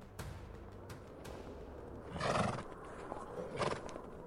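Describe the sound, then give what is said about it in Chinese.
A ridden horse neighs as it sets off, giving two loud, whinnying bursts in the second half after a quieter opening. “驾！ 就这样，安娜骑上马儿后，开始了寻找姐姐艾莎的冒险之路。”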